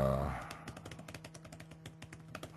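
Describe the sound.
Typing on a computer keyboard: many quick, crisp keystrokes in an uneven patter at a moderate level, following a brief bit of voice at the very start.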